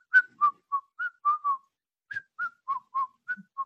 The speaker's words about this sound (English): He's been just kind of like whistling